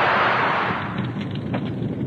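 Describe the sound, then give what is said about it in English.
Greek fire bursts alight as a burning brand touches it: a loud, dense roaring whoosh that fills the whole clip, strongest at the start and settling into a steady rushing roar. No voices. “give me the burning brand. We will light the Greek fire.”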